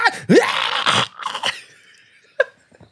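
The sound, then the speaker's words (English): Cats screaming while mating, harsh yowling cries in loud clustered bursts with a sharply rising wail near the start, then quieter calls and one brief shrill cry after a pause. “So this is the sound of cats having sex, by the way.”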